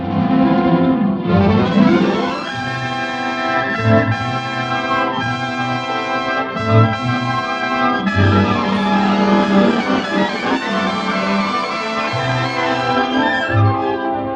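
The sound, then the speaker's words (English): Dramatic orchestral film music under a scene of the aurora, loud and sustained, with full layered strings and brass swelling steadily throughout and no talk. “But the music sure wanted to inspire awe about it, and it sounds like this while you're watching the movie.”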